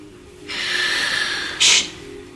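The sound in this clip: Exaggerated, noisy breathing from someone mocking a quiet meditation session: one long, loud, airy breath followed by a shorter, sharper and louder puff of air, with no talking.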